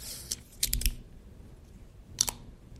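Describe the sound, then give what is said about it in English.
A battery-powered device's dial is turned and gives solid, crisp clicks. A single click is followed by a quick cluster of a few more, then a short pair after a pause, all fairly quiet with no talk. “It's a nice solid click. And this has a nice ballistic feel.”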